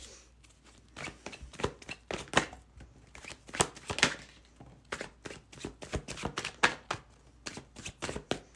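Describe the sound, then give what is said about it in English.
Tarot cards being shuffled and drawn during a reading: many crisp, papery slaps and riffles in irregular bursts, some louder snaps standing out, with short quieter gaps between runs of shuffling. “We're gonna pull just one final card.”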